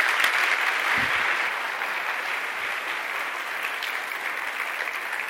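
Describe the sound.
An audience applauds to welcome a speaker at Mission Point, a dense, steady clapping that is slightly louder at first and then holds evenly for the whole stretch.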